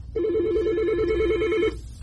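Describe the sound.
A single telephone ring, one continuous warbling electronic trill lasting about a second and a half, sounds loud and alone as a caller is taken on air during a phone-in quiz.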